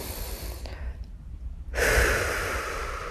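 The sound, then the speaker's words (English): A deep breath, drawn in and let out: a soft, breathy hiss, a short near-silent pause, then a fuller, louder rush of air that carries on steadily. “Take a deep breath.”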